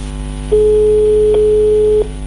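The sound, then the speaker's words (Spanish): A single telephone ringback tone while calling, a steady mid-pitched ring lasting about a second and a half, set between quieter stretches of low line hum. “¿Qué hubo? Está timbrando. Vamos a ver si me contesta.”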